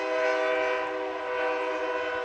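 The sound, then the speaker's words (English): A freight train's horn blares by an old stadium on a game night, one loud, steady, multi-toned blast that holds for the whole clip with no voices over it. “And we get our second freight train by the old stadium here tonight.”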